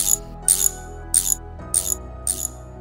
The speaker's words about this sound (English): Now come on. Get tightening those bolts till we get this done.